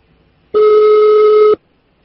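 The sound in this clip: A single steady telephone tone sounds for about a second as a call to the police is being placed. It is loud, clean and unbroken, with silence on either side.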